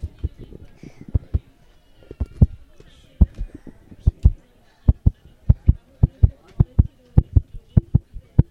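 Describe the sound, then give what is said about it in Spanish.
A heartbeat plays through headphones at a family audio workshop. Many low, booming thumps come in close pairs with a regular, steady rhythm, loud and clear against a quiet background. “A ver, cerrando los ojos, a ver si escucháis un corazón.”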